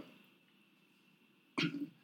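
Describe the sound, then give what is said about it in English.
A single abrupt cough from a person breaks an otherwise quiet, faint background near the end, short and harsh with a brief rasping tail. “Yeah, we both coughing over here.”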